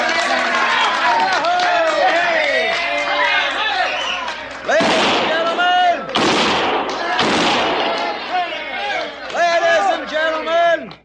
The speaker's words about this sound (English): If you'll give me your attention and kindly refrain from shooting six guns in the establishment, because the next man that does it's going to get thrown out on his saddle.